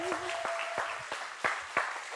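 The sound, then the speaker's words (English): Applause from a church audience in the morning as women come onto the stage: brief, fairly faint clapping with a few sharper claps standing out. “So can we give a round of applause to some women that are coming out here this morning?”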